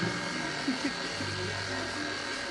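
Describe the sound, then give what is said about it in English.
A stand mixer whisks clumped butter at low speed, giving a steady motorized whir and buzz that stays even throughout. “And I'm going to mix this at low speed until it resembles coarse crumbs. There it goes.”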